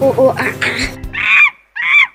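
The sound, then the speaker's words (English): A child's voice imitates a monkey with two loud, high-pitched squealing calls after a brief stretch of speech. “And what does a monkey say?”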